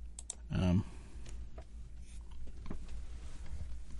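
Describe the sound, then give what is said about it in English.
Typing on a computer keyboard: a few scattered clicks and taps over a steady low background hum, with one brief louder thump near the start. “Sorry for the dead air. I know that's probably the capital sin of all radio, but you got to listen to me type, which is even more exciting”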